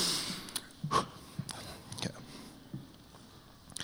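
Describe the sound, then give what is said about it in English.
A person takes a breath before reading a long scripture passage aloud. The breathy intake is quiet and is surrounded by a few brief soft mouth and nose noises, with no words spoken. “I'm going to take a breath because it's a lot to read.”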